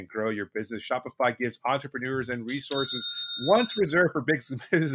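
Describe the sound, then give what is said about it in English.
A bright electronic sale-notification chime from an online store platform rings once as a cluster of sustained, ringing tones. It falls in a short pause between stretches of talk. “Oh, that's the sound I'm looking for. That's the sound I love some more. It's the sound of another sale on Shopify”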